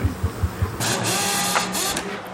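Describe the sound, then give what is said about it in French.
A CNC milling machine runs in a workshop cutting plexiglass, opening with four quick rhythmic thumps that give way to a steady, loud mechanical whirring hum. “Un débutant, là ? Bah, pourtant, vous êtes avec un... Une fraiseuse numérique.”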